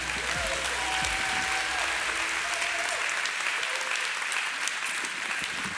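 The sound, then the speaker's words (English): Sustained applause from a church audience welcoming a pastor, dense, even clapping that holds steady from start to finish. “So, if you will, at all of our locations, would you put your hands together and join me in welcoming Pastor Derek Delaney.”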